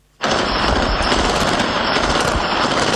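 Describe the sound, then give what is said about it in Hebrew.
Continuous automatic gunfire in a southern town at night, a dense, unbroken rattle that starts abruptly after a moment of silence and stays loud and steady to the end. “התיעוד הבלתי נתפס הזה של ירי בלי הפסקה לא מגיע מרפיח או חאן יונס.”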